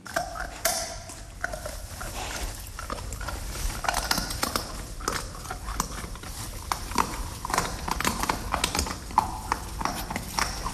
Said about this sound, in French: C'est un sanglier qui mange des glands.